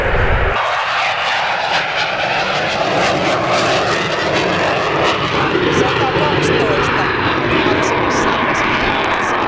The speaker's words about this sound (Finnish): Se on Eurofighteri.